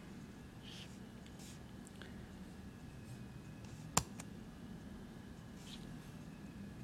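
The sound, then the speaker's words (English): A single sharp computer mouse click on the superscript button stands alone over faint background hiss. “up here I'll find my superscript button, click that”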